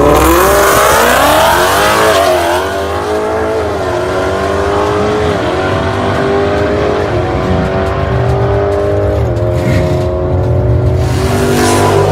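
A car fitted with a Whipple Gen 5 supercharger makes a drag racing run on 100 octane fuel. Its loud, continuous engine roar climbs in pitch repeatedly, dropping back at each gear change.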